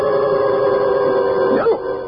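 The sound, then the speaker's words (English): A small white dog with a curly tail gives a single short, high yelp that bends in pitch. It comes near the end, over a steady, sustained tonal background. “See him? Little white dog, curly tail. Oh, silly little thing.”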